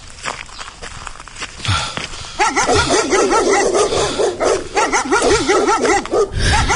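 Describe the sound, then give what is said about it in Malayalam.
Dogs bark near a house in the morning, with many quick barks and yips, joined from the middle onward by wavering, whining tones that rise and fall repeatedly. “നാശങ്ങൾ ഈ ചർമ്മൽ മത്തയുടെ വീടിന്റെ നേർക്ക് നോക്കി തന്നെ വേണോ ഇവറ്റകൾക്ക് കുരയ്ക്കാൻ? ഇതുങ്ങൾക്ക് രാവിലെ വേറൊരു പണിയില്ലേ?”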